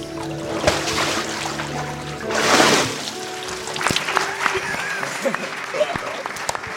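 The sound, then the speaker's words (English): A water splash from a baptism by immersion: one broad surge of sloshing water swells and fades within about half a second, while people talk throughout. “On this, the profession of your faith in Jesus Christ, I now baptize you in the name of the Father, and of the Son, and of the Holy Spirit.”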